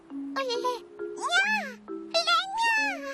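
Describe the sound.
A kitten gives a few high, wavering cries with an unusual, strained tone. Each cry bends up and down in pitch, and the cries come in short bursts with brief gaps between them.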